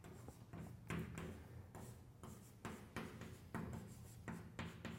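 Writing on a board during a lecture on vector calculus produces many quick, scratchy strokes in an uneven rhythm, soft and dry, with short pauses between bursts and no speech.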